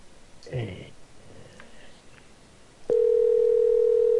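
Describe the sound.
A telephone dial tone heard while placing a call: a sharp click, then a loud, steady, unbroken tone that holds to the end after a quieter stretch.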